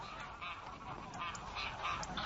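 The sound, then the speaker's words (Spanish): Greylag geese honk in a busy, overlapping series of nasal, raucous calls, moderately loud and continuous with no gaps across the whole stretch. “Los gansos grises habitan en las marismas de Escocia, Escandinavia, Europa Central y Europa del Este.”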